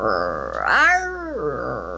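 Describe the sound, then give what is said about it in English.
A person's voice imitates a deep animal growl, likened to an engine starting and stopping with widely varying pitch. A rough, throaty groan rises, holds, then falls back into softer, murmured voicing. “It's a deep growl, but it'll go, and it's kind of like,”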